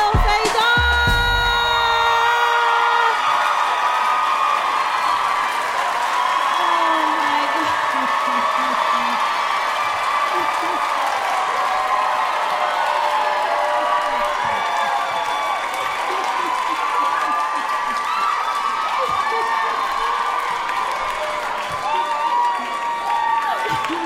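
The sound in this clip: An audience applauds and cheers for a performer at a live show, with steady clapping, scattered whoops and crowd voices running for the whole stretch without a break.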